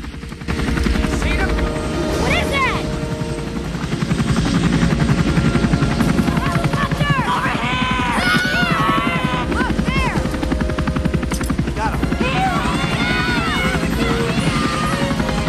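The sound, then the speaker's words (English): A Coast Guard helicopter flies over water during a rescue. Its loud, steady rotor thumping and engine roar fill the whole stretch, with busy high-pitched sounds riding over the drone. “The Coast Guard helicopter is in the air.”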